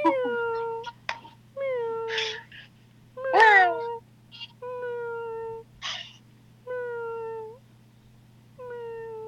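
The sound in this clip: A pet cat meows over and over, many drawn-out, tonal meows mixed with a few shorter, sharper calls, moderately loud and heard on their own.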